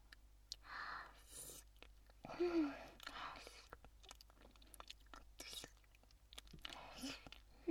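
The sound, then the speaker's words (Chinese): Faint, wet licking and smacking mouth sounds on skin, mixed with soft whispering; moist clicks and slurps come in irregular bursts throughout, quiet and intimate. “就让人家舔舔嘛，就一口，保证一口，可以吗？那我要开始了。”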